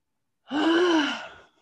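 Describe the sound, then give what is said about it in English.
A single long, audible deep breath with a faint voiced tone, swelling quickly and holding for about a second before trailing away, heard alone without talk. “can we just all take a deep breath? Because we finally, I'm not saying we made it, but like we're almost making it.”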